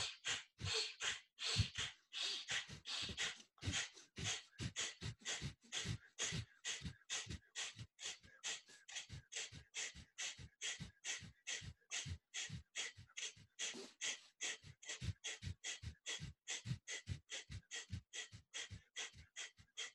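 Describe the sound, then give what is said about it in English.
Many rapid, forceful bursts of breath pushed out through the nose as the belly pumps inward in a breathing exercise, a steady snorting rhythm of roughly two puffs per second that continues throughout. “pump your belly inwards on the breath out like this through your nose and then come back in the breath come let it come back in through your nose”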